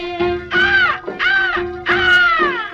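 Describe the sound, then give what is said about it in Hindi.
Crows cawing: three loud, harsh, drawn-out caws in a row over a steady sustained musical tone. “देख तो हर काकी जोड़ी कौवे शोर मचाए, इन कौवे शोर मचाए।”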